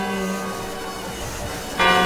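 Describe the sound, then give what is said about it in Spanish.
A clock bell chimes the quarters at a New Year's Eve countdown, just before the midnight strokes. Sustained ringing tones hang in the air, and a fresh strike comes near the end. “Empiezan los cuartos. Ahí está. Mira, estos son, ¿no? Sí. Y a continuación las campanadas.”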